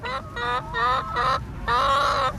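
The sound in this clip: Chickens cluck softly while spread out over open ground, giving about five short, tonal, murmuring calls in an uneven rhythm with brief pauses between them. The last call is longer and slightly fuller.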